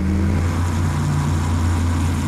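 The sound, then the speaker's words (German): Synthetic sporty driving sound designed by Audi in 2012 for an electric car: a steady, deep electronic hum built from layered low tones, loud and continuous with no breaks. “Wie sportlich klingen könnte, hat Audi im Jahr 2012 demonstriert. Nämlich so.”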